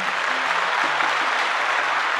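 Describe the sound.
Studio audience applause welcoming a talk show host: dense, steady clapping from many hands keeps an even, loud wash throughout, with no voices over it.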